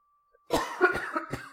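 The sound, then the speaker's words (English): A few muffled coughs made away from the microphone, moderately loud bursts in quick succession, with no talk around them. “I'm sorry, I didn't cough into the microphone that time.”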